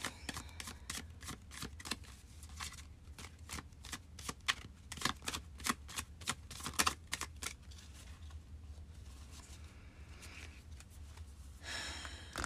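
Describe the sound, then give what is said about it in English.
Tarot cards are shuffled in many quick, crisp riffling snaps with an irregular rhythm, fairly faint, ending in a denser flurry. “So let's pull some cards for our week ahead.”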